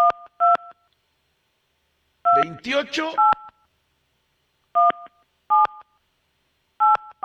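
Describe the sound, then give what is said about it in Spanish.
DTMF keypad tones as a telephone number is dialed to call a prize winner: several short, steady two-tone beeps at uneven spacing, with a brief voice between them. “A ver, vamos a marcarle.”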